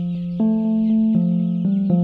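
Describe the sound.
Chickens vocalizing on an open pasture, heard as a steady, low, droning call with clear harmonic tone and a slight step up in pitch early on, continuing unbroken throughout.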